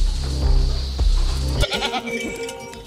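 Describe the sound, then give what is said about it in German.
A large goat on an organic farm bleats in a long, low, wavering call. Quieter mixed noises follow. “Das ist aber auch eine schöne große Ziege, die 22.”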